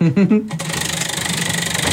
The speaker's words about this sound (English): We're rolling. I have a spinning wheel. Hopefully you can hear it, guys.